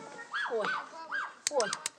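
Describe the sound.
A child pretends to bark like a dog, giving a few voiced, yelping barks with sliding pitch, followed by some sharp clicks.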